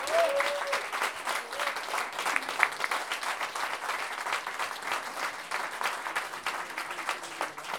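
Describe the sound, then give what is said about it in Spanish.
Steady applause from an audience at a payador improvised-verse tournament: dense, even clapping that continues without a break from start to finish, with no clear peaks. “Por eso les pido, por favor, un grandísimo aplauso para ellos.”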